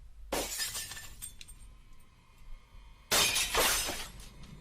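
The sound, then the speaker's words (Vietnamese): A basket of bowls dropped and shattering: two bright crashes of breaking crockery, the second louder and longer, with scattered tinkling pieces in between. “Nhàn đánh rơi cả rổ bát.”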